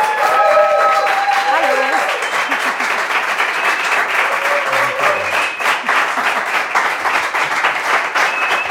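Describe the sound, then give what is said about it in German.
Loud, sustained audience applause welcoming a guest onto a German talk show: a dense, steady wash of clapping throughout, with voices faintly mixed in near the start. “Wie früher, ich wollte gerade sagen, so viel Applaus bist du ja gewohnt”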